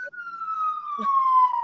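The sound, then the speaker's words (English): A siren passing in a Brooklyn street, one long, clear wail gliding slowly downward in pitch, loud and steady throughout, with a brief faint clatter partway through. “And can you tell we're in Brooklyn? The sirens.”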